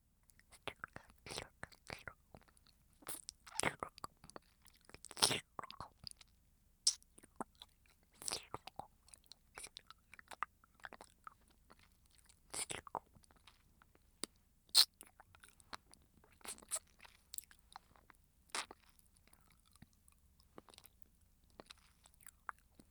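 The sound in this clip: Hard candy being chewed and crunched, with many sharp, irregular crunches and bites, some louder than others, alongside soft whispering at times.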